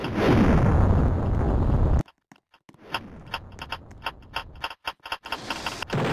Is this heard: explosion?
yes